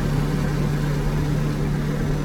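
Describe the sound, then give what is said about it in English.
A snowmobile engine runs in a steady, unbroken drone, with a low humming tone that holds even from start to finish. “So if you want to turn on, first you have to pull, and orange button on the left, you press your second, snowmobile on.”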